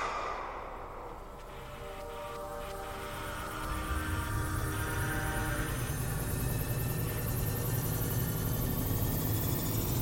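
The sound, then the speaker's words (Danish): A time machine sound effect: layered electronic hum and stacked sustained tones with a thin whine climbing in the upper range, then a loud rushing surge swells in partway through and holds steady to the end. “Okay, det du kan høre her er lyden af en tidsmaskine. Den er designet til at flytte dig 25 år ind i fremtiden.”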